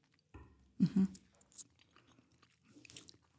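Faint mouth sounds of tasting a wine with firm tannins: a few short sipping and slurping bursts, with soft smacking noises between them and quiet pauses.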